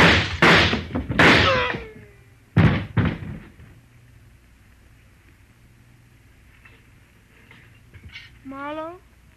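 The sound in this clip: A single sharp gunshot in a tense detective scene: raised voices come first, then one loud, abrupt crack, followed by a quiet stretch and a short voice near the end.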